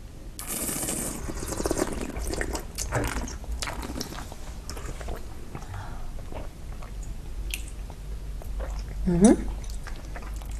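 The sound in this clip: Tasting of a 2020 Sauvignon white wine of 13% alcohol: soft sips, slurps and wet mouth sounds recur quietly, with a slightly louder slurp near the end.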